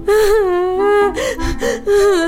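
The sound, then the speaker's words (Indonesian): A young child cries loudly in long, wavering wails broken by short sobbing gasps, the voice rising and falling unevenly. “Ladalah, tambah kenceng nangisnya. Kenapa sih, Nak? Kenapa? Kenapa? Ada apa sih?”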